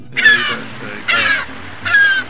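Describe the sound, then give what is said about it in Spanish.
A seagull flying over the sea gives three loud, harsh, nasal calls, evenly spaced with short pauses between them. “Miren esa gaviota volando”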